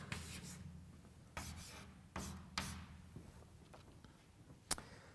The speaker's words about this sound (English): So let's draw a diagram. Versus T and R. T and R.